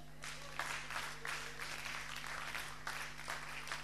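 Church audience clapping to acclaim the Lord during a sermon, faint applause that swells and eases in waves over a constant low hum.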